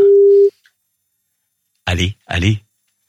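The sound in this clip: A telephone dial tone while a call is being placed: a steady, mid-pitched tone holds for about half a second and then cuts off. After a pause, a voice speaks in two short bursts.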